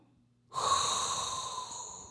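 A deep breath drawn in after a brief silence: one long, steady, breathy hiss that starts abruptly and holds for nearly two seconds, fading only slightly toward the end.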